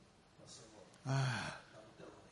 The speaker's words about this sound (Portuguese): Puxa o ar aí, vai.